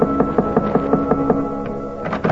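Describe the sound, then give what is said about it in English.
Rapid knocking on the door of a hotel suite in Beirut: a steady series of sharp raps over sustained music, slowing toward the end. “And 20 minutes later, I was knocking at the door of her suite.”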